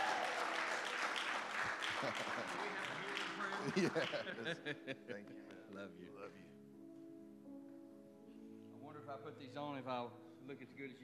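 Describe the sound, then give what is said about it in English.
A church audience on its feet applauding to welcome guest speakers: full, loud clapping for about four seconds that thins out into a few scattered claps, soft chuckles and talking voices. “And as we welcome them up, can you stand to your feet and give them a hand?”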